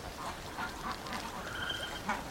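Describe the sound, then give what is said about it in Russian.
Geese settling down for the night beside a person, giving a few soft, low honking calls against a quiet background. “Гуси располагаются рядом.”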